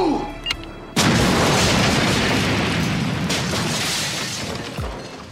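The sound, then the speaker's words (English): Bombs explode around an apartment complex: a sudden massive blast breaks into a loud, rolling roar with shattering debris, a second burst hits midway, and the rumble slowly decays. “Kimberly, for reasons that are far too complicated to explain, plants a series of bombs around the Melrose Place apartments”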